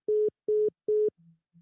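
Telephone busy signal after calling back a caller who hung up: three evenly spaced, steady mid-pitched beeps, each about a fifth of a second, then a faint low hum.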